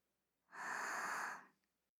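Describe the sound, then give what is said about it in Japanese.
A slow deep breath in during a guided relaxation: one soft, airy, hissing inhale lasting about a second, smooth and steady, quiet and alone with no talk. “ゆっくり吸って”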